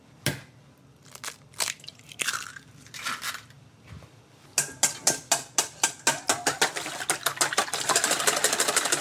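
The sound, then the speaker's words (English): Eggs being cracked and whisked: a few sharp cracks and scraping knocks come first, then many quick, rhythmic whisk strokes against the bowl that grow faster and denser toward the end. “Meantime, I'm gonna crack and whisk our eggs.”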